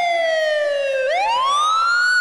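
An ambulance siren wails loudly on its own, its tone gliding steadily downward for about a second before sweeping back up into a long rising whoop.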